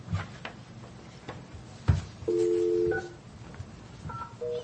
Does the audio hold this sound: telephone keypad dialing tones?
yes